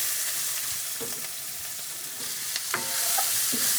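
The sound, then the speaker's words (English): Onions hit a hot pan with browned fond and a floury film on the bottom and sizzle steadily, a soft frying hiss broken by a few light clatters of stirring. “There's some fond on the bottom. So now I'm gonna drop my onions in here.”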